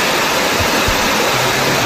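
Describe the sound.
Water flows through a ravine in Telde after rains, a steady, dense rushing roar that stays constant throughout with no voices.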